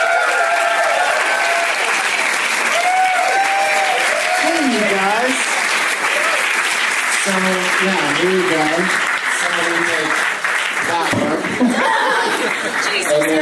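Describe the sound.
Audience applause welcoming guests onto a live show stage, loud, dense clapping that holds steady throughout, with laughter and whooping voices mixed into the crowd noise.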